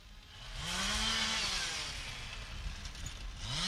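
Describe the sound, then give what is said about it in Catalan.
Chainsaws cutting trees by the roadside, a loud steady buzzing whine with engine revs rising and falling over the whole stretch. “Això que sentiu de fons són motoserres. Uns operaris estan treballant a peu de carretera per tallar els arbres.”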